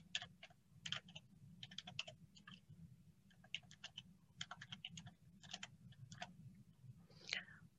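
Someone types on a computer keyboard in quick clusters of light, clicky keystrokes separated by short pauses, quiet and crisp throughout.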